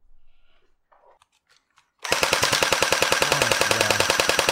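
A toy gun firing continuously: a rapid, steady stream of sharp mechanical clacks over a low buzzing whir, lasting more than two seconds after a few faint clicks and handling noises.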